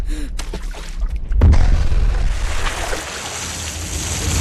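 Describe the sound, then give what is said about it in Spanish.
A grenade explodes in a swimming pool: a sudden deep boom is followed by a long, roaring rush of churning water that slowly thins out. “¡Sargento! ¡Suelta una granada en la piscina!”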